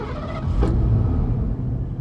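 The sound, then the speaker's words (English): A shiny blue Ford Mustang drives with a steady, low engine rumble and road noise that swells slightly and then holds at a moderate level. “Michelle O'Keefe loved driving that shiny blue Mustang.”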